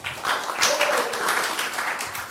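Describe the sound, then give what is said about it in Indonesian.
Audience applause welcoming a guest: a brief, dense, steady patter of many hands clapping at once, loud and unbroken. “Tepuk tangan teman-teman Kiai Kanjeng semua.”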